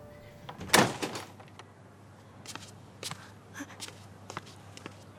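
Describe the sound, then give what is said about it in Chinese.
A door being opened: one loud thump and rattle near the start, followed by a few faint clicks and taps at low level, with no voices. “你们俩啊，把门打开。”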